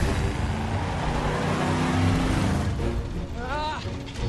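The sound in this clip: Roaring engine of a car driving right down the middle of a sidewalk, a loud sustained rumble with a voice briefly heard over it near the end.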